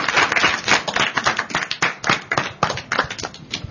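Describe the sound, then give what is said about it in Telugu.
Audience clapping for children after a quiz round: many hands clapping loudly in a dense, irregular patter, holding at a fairly constant intensity throughout with sharp individual claps poking through. “Very good, very good. చప్పట్లు కొట్టండి చక్కగా.”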